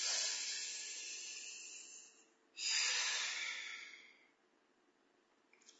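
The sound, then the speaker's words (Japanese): A deep breath: a long, steady, airy inhale lasting about two seconds, a brief pause, then a strong hissing exhale that fades out into near silence. “最後深呼吸して2回目いきます。”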